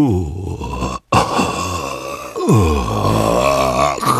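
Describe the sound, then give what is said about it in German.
Horrible groaning from something under a bed: low, drawn-out, rough moans that waver in pitch, broken by a brief silence, then resuming loud and sustained. “Was war das? Woher kam dieses grässliche Stöhnen? Jetzt war er sicher. Da war etwas unter seinem Bett.”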